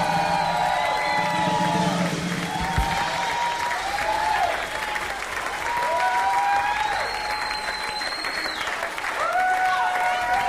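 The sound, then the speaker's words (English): Audience applause and cheering at a live show, sustained clapping with whoops and calls breaking out over it again and again, loud and continuous. “Make some noise, ladies and gentlemen. Get him up here.”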